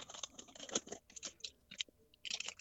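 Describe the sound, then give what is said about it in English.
Someone noisily chewing food, faint crisp crunches and wet mouth sounds in irregular bursts with short pauses between bites. “What are you unwrapping a turkey dinner over there? Or? No. I'm no. Stuffing my face.”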